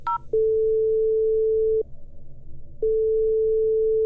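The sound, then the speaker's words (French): A telephone ringback tone plays while a call is placed. A short higher beep comes first, then a long, steady, low hum. After a brief gap the same tone starts again. “Je reste zen et j'appelle Marianne Cambon.”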